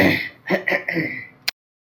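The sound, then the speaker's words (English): Throat clearing by someone with constant nose allergies: a few raspy, voiced bursts over about a second and a half, ending in a sharp click, then silence. “So throat clearing.”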